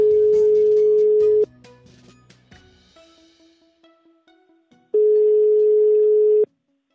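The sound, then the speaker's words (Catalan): Ringing tone while placing a telephone call: a long, steady low tone, then a stretch of quieter tones and faint clicks, then the steady tone sounds again and cuts off. “Truquem a l'Asma.”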